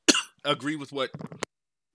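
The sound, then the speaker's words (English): A single short, sharp cough, followed by about a second of voiced sound. “Heard the cough. Yeah, heard the cough. One cough snuck in.”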